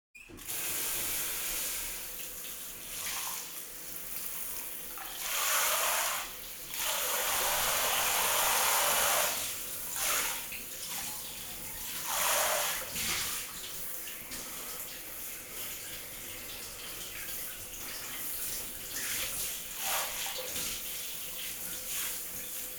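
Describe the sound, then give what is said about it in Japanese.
Water runs and splashes steadily while soap suds are rinsed off a body, a broad hissing wash that swells into several louder gushes. No one speaks. “全身あわあわだね。流してあげる。”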